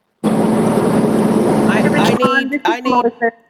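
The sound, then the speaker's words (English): Traffic noise from a car driving with its window down makes a loud, steady rushing roar that ends abruptly, followed by voices talking. “I don't know if someone's driving and has their window down. But it's very difficult to hear”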